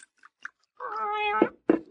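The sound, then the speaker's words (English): A cat sitting on a bar gives one drawn-out meow, a sustained tonal cry, followed by a couple of brief, fainter sounds. “Hush up, cat.”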